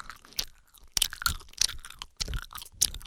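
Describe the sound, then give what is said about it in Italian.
Noisy gum chewing: a run of wet, smacking mouth sounds with crunchy edges, coming in uneven bursts that are fairly loud and heard alone without talk. “Uno mastica la gomma così fa veramente venire nervoso.”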